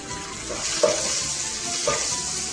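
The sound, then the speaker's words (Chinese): Dried tofu sizzles as it stir-fries in plenty of oil in a pan, a faint steady hiss broken by a couple of brief stirring scrapes. “因为我说过是介于炒，介于炒跟这个炸的中间，所以油要多一点。好，一定要炒到这个豆干哦”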